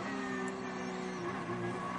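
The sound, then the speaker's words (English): Racing cars on a track during a motorsport race give a steady, droning engine whine with sustained tonal harmonics at a moderate level. “Dual Motorsport holding on to position very tight. Two brightly painted cars”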